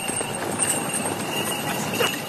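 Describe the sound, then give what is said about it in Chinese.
Hooves clip-clop from a horse pulling a carriage along a road, a steady run of light knocks that stays fairly even in loudness throughout. “佳木斯，小五套了辆马车往伊兰赶，半道上被几名警察给拦住”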